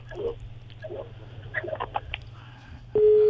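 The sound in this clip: Telephone tone after a call is cut off: a humming, crackly phone line gives way to a loud, steady mid-pitched tone at the end.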